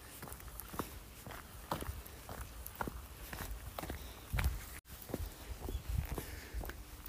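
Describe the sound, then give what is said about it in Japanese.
Footsteps walking on a quiet countryside hiking trail on a nature walking route toward a mountain. Many evenly spaced, soft thuds form a steady walking rhythm over faint background hiss, with no voices. “静かな道を歩いてますね”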